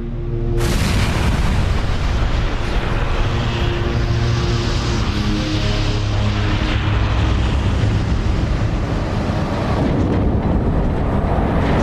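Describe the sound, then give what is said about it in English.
A Rolls-Royce jet engine being destroyed in a blade-off test. A sudden, very loud roar bursts in just after the start and continues as a steady, overwhelming rumble to the end. “Blade-off testing is normally top secret, but for the first time, Rolls-Royce have released this footage. Although the engine was totally destroyed, the fan case did its job, and no large lumps of metal were ejected.”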